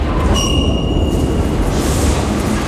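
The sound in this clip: A train at a railway station platform, a loud continuous rumble of rolling wheels with a brief high metallic squeal ringing out early on before the rumble carries on alone.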